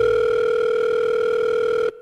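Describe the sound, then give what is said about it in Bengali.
A telephone call tone sounds as a steady, unbroken electronic tone, loud and alone for nearly two seconds before cutting off sharply. “পরদিন সৌরভ ওকে phone করল।”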